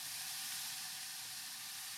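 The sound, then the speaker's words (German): Bacon sizzles in a huge steaming pot, stirred with a long-handled wooden spoon, making a loud, steady, unbroken hiss with no talk. “Jetzt kommt schon direkt der Speck dazu. Jetzt kommt der Speck dazu schon.”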